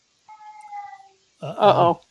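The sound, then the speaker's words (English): A cat meows clearly on its own, a short wavering cry that swells to a loud, rough meow. “Uh-oh. Cat.”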